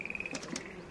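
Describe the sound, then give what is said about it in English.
Frogs croak rhythmically in a swamp as a faint, rapid, evenly spaced pulsing trill, joined by a couple of brief higher chirps partway through. “and you hear the sounds of frogs croaking in the background very rhythmically,”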